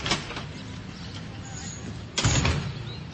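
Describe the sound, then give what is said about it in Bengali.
A door being opened, heard as a sudden sweeping rush and clunk about two-thirds of the way in, after a stretch of quiet background hiss. “একটু চমকে উঠে তিথি, এমন তো হয় না, এই সময় আবার কি এলো? ভাবতে ভাবতে দরজা খুলে অবাক হয়ে যায়।”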